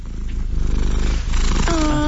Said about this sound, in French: C'est un chat.